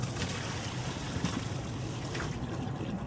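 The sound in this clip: Herbs are swished around in water in a salad spinner bowl, making a continuous soft sloshing and trickling with gentle swirling surges at a fairly quiet, even level.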